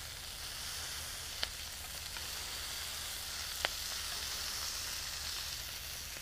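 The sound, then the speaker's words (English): Steady, even sizzle of a super-thin smash burger patty frying, continuous hiss throughout with a couple of faint, sharp ticks, and no talking. “Now this smash burger should not take that long to cook because it's super thin.”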